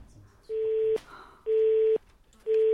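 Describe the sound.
Telephone busy tone after a caller hangs up on a call to a medical office: three steady mid-pitched beeps, each about half a second long with equal gaps between them. The last beep is cut off, and a faint hiss runs underneath.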